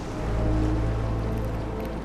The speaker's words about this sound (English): Waves surge around the rocky island.